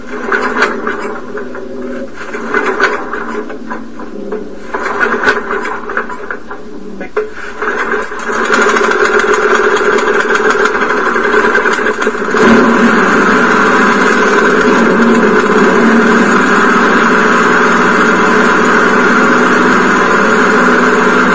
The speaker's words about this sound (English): It'll probably just take a couple pulls to get the fuel pumped back up into the carburetor.